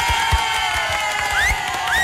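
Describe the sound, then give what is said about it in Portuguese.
Crowd cheering and clapping for a radio station's on-air celebration. A dense, continuous roar of voices and scattered claps holds steady throughout, with a few rising whistles cutting through near the end. “Vocês ganham muito dinheiro para bater palma, mais palmas.”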